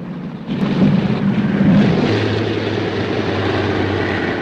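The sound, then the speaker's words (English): An airplane coming in to land at an airfield: a low, steady engine drone starts suddenly after a brief quiet moment and holds at an even level to the end. “Plane number 70 heads back to the airfield, coming in smoothly to land.”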